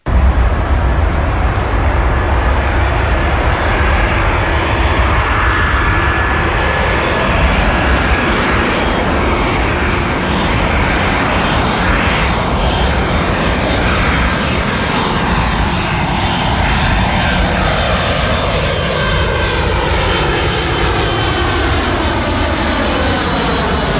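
An airplane arrives and lands. Its engines give a loud, continuous roar with a high whine that slowly sweeps and shifts throughout.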